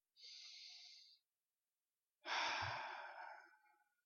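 A deep breath taken together during a sermon: a long, airy inhale, a pause of about a second, then a louder, longer sighing exhale that slowly fades out.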